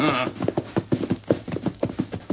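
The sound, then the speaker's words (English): A ridden horse approaches with its rider badly hurt, the hooves beating out a fast, rolling clip-clop rhythm of many hoofbeats that stays steady and fairly loud throughout. “Horse coming. Whoever that rider is, he's badly hurt.”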